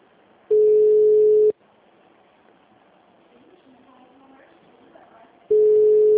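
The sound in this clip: Ringing tone of an outgoing phone call: two long, steady, mid-pitched tones, each about a second long, separated by a quiet gap of several seconds.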